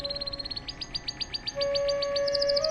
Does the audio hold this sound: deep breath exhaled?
no